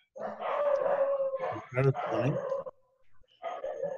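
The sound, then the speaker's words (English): A dog howls and barks in a few drawn-out, wavering bursts with sharper barks mixed in. A short pause comes before a final howl. “that must be a descendant of Sivananda Sen's dog”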